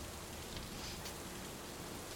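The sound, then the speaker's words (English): Rain falling in a steady, faint, even hiss, with no distinct drops and no voices. “Yes, it is raining.”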